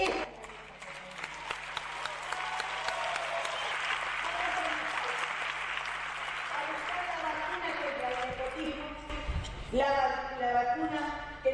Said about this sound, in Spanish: El aplauso en ese momento fue impresionante. Todo el auditorio parado de pie, o sea, estallaba sí.